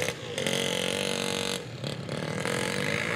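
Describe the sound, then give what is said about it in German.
A moped drives along the narrow top of a new flood-protection wall beside the Java Sea, its engine a continuous buzzing drone with steady harmonics and mild clatter that dips briefly a couple of times before resuming. “Auf der schmalen Mauerkrone fährt ein Moped entlang.”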